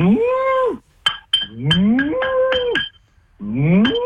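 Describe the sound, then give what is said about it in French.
A human voice imitates cattle mooing while calling cows one by one back into the barn. There are three drawn-out, loud, lowing moos, each rising and then falling in pitch, with a couple of sharp clicks between the first two. “Tu parles dans leur langue, la langue de la vache.”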